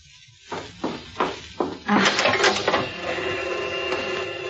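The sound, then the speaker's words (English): A tape machine starts up to play a dictated tape: several distinct mechanical clunks, then a steady hissing, humming run of tape that continues to the end. “I've got copies of everything he's dictated, but there's a tape on the machine right now. I got it 3 weeks ago. I was listening to it again. You'd better hear it.”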